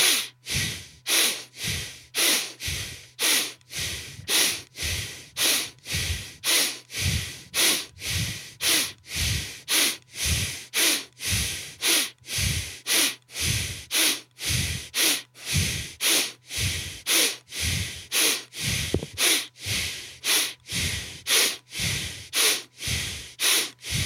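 Rhythmic breathing in through the nose during a guided breathwork exercise: many quick, evenly paced breaths repeat at a steady tempo, each a short airy rush, with no talking.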